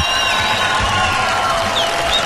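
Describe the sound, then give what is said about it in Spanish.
Audience applause and cheering at an awards ceremony for a Cuban singer: a steady, dense roar of clapping mixed with whoops and whistles, holding level from start to finish. “Los aplausos del público”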